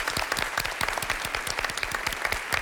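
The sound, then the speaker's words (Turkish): On a quiz show, a studio audience applauds in tribute to a Nobel Prize-winning chemist: crisp individual claps, many of them, in a brisk, fairly regular patter at moderate volume. “Biz de kendisine sevgilerimizi iletiyoruz ve alkışlıyoruz.”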